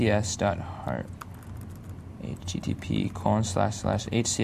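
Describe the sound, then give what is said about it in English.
Typing on a computer keyboard while a web address is entered, a run of quick key clicks heard beneath a person talking. “And I'm just going to type in, let's see,”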